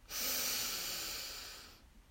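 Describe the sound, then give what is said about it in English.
A slow, deep inhale taken during a guided breathing exercise, one long breathy draw of air lasting nearly two seconds that swells quickly and then tapers gently, heard alone with no talk. “And our last breath in together. Breathe in”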